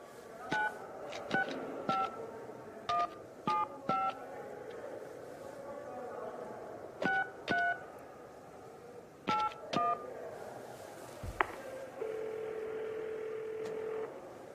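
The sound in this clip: Touch-tone dialing beeps from a telephone touchpad come in many short, quiet bursts separated by pauses. A single steady tone follows at the end.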